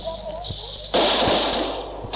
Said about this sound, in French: La barricade vient d'ouvrir le feu.